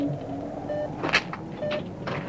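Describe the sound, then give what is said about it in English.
A gate swings open after a police inspector is admitted over an intercom: a short mechanical clatter peaks midway over a steady low hum, with faint electronic tones at intervals. “A red light flashes on the intercom. And the gate swings open.”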